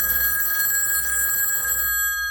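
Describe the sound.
Telephone bell ringing with a steady, bright, trilling ring that runs unbroken and then cuts off abruptly just before the end.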